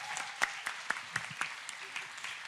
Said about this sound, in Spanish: Wow, un aplauso, Elena. Tremendo.